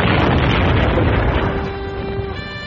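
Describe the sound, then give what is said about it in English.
A birthday cake rigged with explosives blows up in a loud, broad roar that fades slowly, and a faint high ringing tone comes through near the end. “The blast tore me from my platform soles.”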